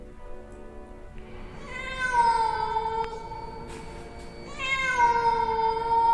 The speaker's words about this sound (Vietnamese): Ở sau lưng tôi, bên kia đường, một con mèo đen đang ngồi chễm chệ. Nó nhìn tôi, nó kêu thêm vài tiếng nữa.